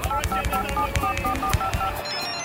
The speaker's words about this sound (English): this phone call has been leaked to us. This might explain it.